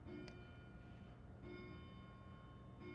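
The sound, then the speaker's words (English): A bell ringing softly in a few evenly spaced strikes, each leaving a sustained metallic ring that fades before the next, heard alone with no talk. “I'm not sure if you can hear the bell going. There we go.”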